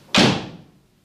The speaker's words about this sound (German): Und die Tür fiel hinter ihr ins Schloss